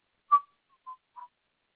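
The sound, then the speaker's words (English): A person whistling while walking, giving a few short, clear mid-pitched notes: one firm note followed by softer, briefer ones, with silence between them. “I was whistling as I'm walking up”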